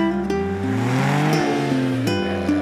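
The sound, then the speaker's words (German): Porsche sports car accelerating: a loud, continuous engine roar that climbs in pitch and then drops back, with no talk over it. “nur im Porsche tritt er voll aufs Gas.”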